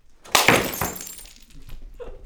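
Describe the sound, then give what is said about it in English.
Glass breaks in an enclosed rage room, with one loud shattering crash, a smaller second impact and then fading debris rattling. “And so we created this room that's enclosed. You put on full safety gear and you smash things.”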